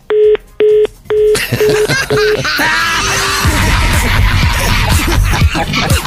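Touch-tone telephone dialing: a short series of beeps, three longer tones and then several quicker ones, followed by loud, busy noise.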